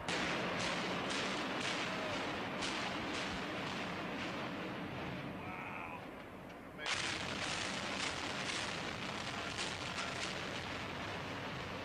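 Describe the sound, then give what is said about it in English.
Blasts from the controlled demolition of a building: rapid sharp bangs ride over continuous heavy rumbling noise. The sound dips briefly, then surges back loud and keeps booming to the end. “And what is controlled demolition? I'll show you what controlled demolition is.”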